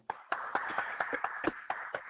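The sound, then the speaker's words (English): Hand claps, about ten sharp, dry strikes in an uneven rhythm, each a crisp snap that decays quickly into quiet, with no talk between them. “Hey, hold on, let me do a clap. Hold on.”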